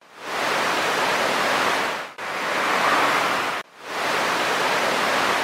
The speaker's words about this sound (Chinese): 一起跳起来，将河面溅起好多水花。